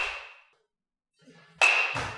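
A 32-inch 2013 5150 baseball bat strikes balls: sharp cracks with a high, ringing ping that decays. One hit fades at the start, then after a quiet pause a louder crack is quickly followed by another.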